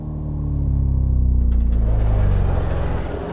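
Steady low engine rumble of a car driving across a bridge into a city, a dense droning hum that swells slightly and holds, then eases a little toward the end, with no voices.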